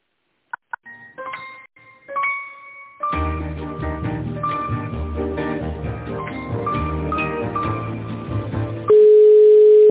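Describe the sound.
Telephone line sounds during a call transfer: a few short electronic beeps, then several seconds of tinny hold melody, ending in a loud, steady tone.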